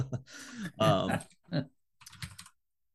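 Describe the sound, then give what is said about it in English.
Typing on a computer keyboard gives quick, light clicks mixed in with a person talking. “I'm typing it up now.”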